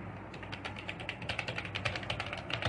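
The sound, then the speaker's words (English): Typing on a computer keyboard, a quick, irregular run of many crisp key clicks at a faint, even level with no talking. “Let me just type this in.”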